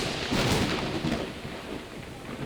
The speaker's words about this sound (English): that storm is coming in now.